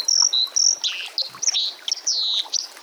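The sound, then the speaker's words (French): Calls of a Bohemian waxwing, a crested, thrush-sized taiga bird: high, thin, buzzy trills repeated many times in quick succession, some overlapping, fairly loud and with no voices. “La plus spectaculaire est sans doute le jaseur boréal,”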